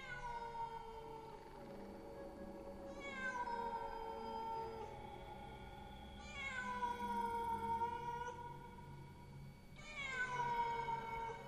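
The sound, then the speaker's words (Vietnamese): Cats yowling mournfully in a drawn-out, eerie chorus: several long wailing cries, each starting high and sliding downward in pitch, rising and falling in loudness over a steady background, with no talking. “Trong không gian bây giờ vang lên những tiếng mèo gào, kêu lên vô cùng thảm não. Tiếng mèo kêu làm cho người ta rùng mình”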